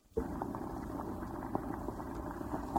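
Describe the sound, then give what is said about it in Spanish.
Oil bubbles as it is heated to boiling in a kitchen. The sound is a faint, steady low simmer with occasional small pops breaking through. “Allí calentó el aceite hasta que empezó a hervir.”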